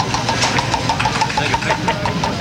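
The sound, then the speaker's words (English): A prize wheel spins with a steady, rapid run of bright, even clicks from its pointer over a dense, loud noise bed. The ticks keep a regular pace throughout. “All right, let me spin the prize wheel here. Round and round she goes. Where she stops, nobody knows.”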